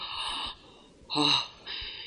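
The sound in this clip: A man breathes heavily and with effort: three drawn-out, wheezy breaths separated by short pauses, the middle one sharper and more gasping, with no talk over them.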